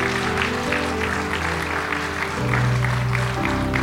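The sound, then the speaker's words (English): Congregation applauding the year's graduates during a church service: a steady wash of clapping held at an even level throughout, over sustained low instrumental tones, with no voices. “Come on, give yourselves a hand.”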